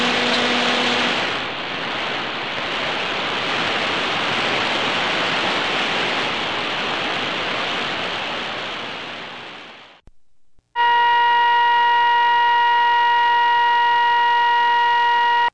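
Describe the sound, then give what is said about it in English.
Motor whine from a Panasonic office copier winding up: a loud, broad rushing noise holds for about ten seconds, drops out briefly, then gives way to a strong, steady whine made of several stacked tones. “That noise is coming from a typical office machine, a Panasonic copier. The whine is the motor as the machine winds up getting ready to work.”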